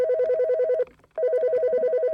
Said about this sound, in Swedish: När jag låg i min fåtölj och väntade på att kaffet skulle bli klart så ringde plötsligt porttelefonen.